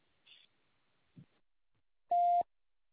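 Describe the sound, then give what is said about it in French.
A voicemail beep: one loud, steady, pure tone lasting about a third of a second, preceded by a couple of faint, brief clicks on an otherwise quiet line. “Merci de laisser un message après le signal sonore.”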